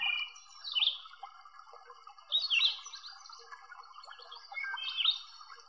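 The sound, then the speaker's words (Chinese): Faint birdsong in trees: three short bursts of bright chirping, evenly spaced, stand out over a quiet, steady background drone. “可能在树上还有鸟儿在歌唱。”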